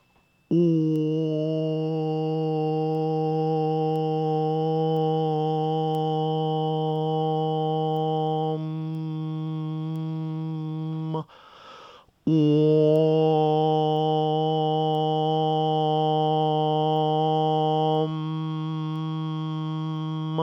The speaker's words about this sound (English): But this is the tone that is generated by two octaves and a third. It sounds like this.